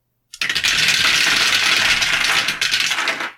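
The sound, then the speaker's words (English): Eight dice rolled during a tabletop board game make a loud, continuous clattering rattle that lasts about three seconds before cutting off, with no talk over it. “Yeah, you roll. So you'll roll 8 dice.”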